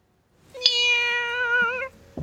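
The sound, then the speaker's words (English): A Siamese cat gives one long, drawn-out meow with a slightly wavering pitch, loud and clear on its own for over a second before breaking off. “Oh no, her cat's gonna attack her. Poor kitty.”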